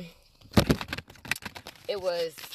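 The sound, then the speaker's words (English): A deck of cards is shuffled in a quick burst of papery riffles and flicks, followed by a person speaking. “So let's go ahead and I'm going to shuffle again.”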